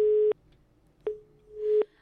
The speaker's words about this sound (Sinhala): ඇමතුම විසන්දි වෙනවා.